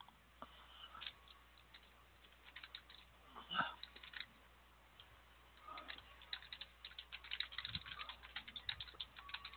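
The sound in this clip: Typing on a computer keyboard, faint irregular clicking keystrokes that grow quicker and denser toward the end.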